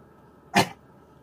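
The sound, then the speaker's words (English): A single short, sharp burst from a dog, heard alone over faint, steady background noise. “jeez, that was my dog.”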